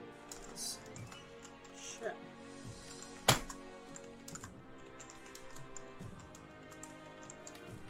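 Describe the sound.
Rapid clicks of typing on a computer keyboard run steadily under a man's talk, with one sharper, louder click near the middle.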